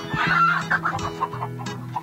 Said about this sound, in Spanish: La gallina había puesto huevos muy extraños.